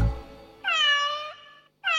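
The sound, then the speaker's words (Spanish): A cat meows twice: a long, clear, tonal call, then a short pause and a second meow that is cut off at the end. No voices. “¿Qué es? El gato que maulló.”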